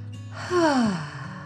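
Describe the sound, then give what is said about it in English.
A slow, deep breath, part of a calming children's bedtime relaxation exercise, is released as one soft, sighing exhale whose pitch glides downward. It is heard alone, with no talk. “Take a slow, deep dragon breath in through your nose and out your mouth.”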